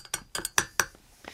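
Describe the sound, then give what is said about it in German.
A spoon clinks against a pot as oiled corn kernels are spooned in for popcorn: several light, bright metallic taps in an uneven rhythm, with no talk. “Da ist schon ein bisschen Öl dran an diesen Maiskörnern. Hier ist ein Löffel, dann kannst du die mal reintun.”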